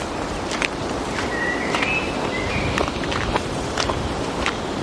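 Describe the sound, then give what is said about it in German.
Two people walk on a soft path, their footsteps faint, muffled and irregular over a steady background hiss. “Ich gehe hier lang. Komm, lass uns zusammen gehen.”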